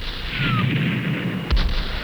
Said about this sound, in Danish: Skjulte kanoner åbner ild.